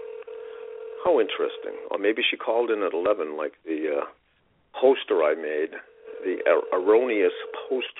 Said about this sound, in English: You can hear that? Can you hear that? That is the phone ringing to Eileen and me stalling.